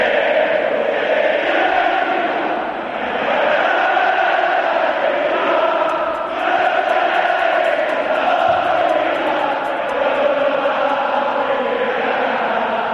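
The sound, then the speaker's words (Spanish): Sevilla football fans cheer at the team's open morning training session, a loud, continuous crowd roar that holds steady for the whole stretch with only brief dips. “este es el sonido de la afición del Sevilla por la mañana.”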